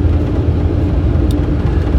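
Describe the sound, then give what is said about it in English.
Pickup truck driving down a long driveway on a chilly morning, with a steady low engine and road rumble throughout and no talk. “I'm taking advantage of the drive down the driveway, the long drive down the driveway on the commute, to let the heater warm up the cab of my truck”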